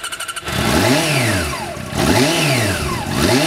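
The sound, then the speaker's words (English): A loud, modified motorcycle starts outside a biker club just after 8 p.m. A brief pulsing putter gives way to repeated hard revs whose pitch swings up and down in broad sweeps. “And that bike? It's loud, clearly modified, right?”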